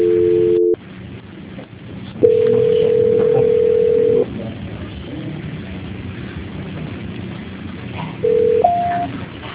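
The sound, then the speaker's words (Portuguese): Telephone line tones sound during the transfer of a dropped call: a short dual tone, a steady tone of about two seconds, then a brief tone that steps up in pitch, with quiet line noise between. “Caiu a ligação aqui. Tá, jóia. Transferência.”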